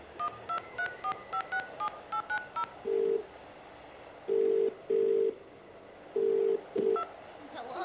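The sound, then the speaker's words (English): Telephone keypad tones ring out as a computer on the moon places a call to Earth: a quick run of many short, high beeps, followed by several longer, lower tones with brief gaps between them. “Call my Earth sweetheart, Louisa May.”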